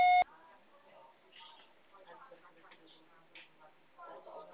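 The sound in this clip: A voicemail beep on a phone line: one short, loud tone at the very start, then only faint, muffled noise and low murmuring.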